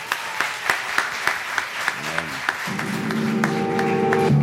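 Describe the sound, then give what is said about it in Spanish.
Applause from a live audience at a comedy talk event: a run of sharp, scattered claps, fairly loud, giving way to a steadier sustained tone near the end. No one speaks. “Dale un aplauso a Julio”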